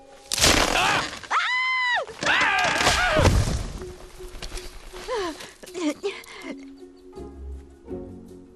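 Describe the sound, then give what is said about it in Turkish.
A mammoth tumbles out of a tree in a forest, with loud cracking and snapping branches, heavy thuds and knocks, and strained groaning vocal cries mixed through the crash. “Ağaçtan başka bir mamut düştü.”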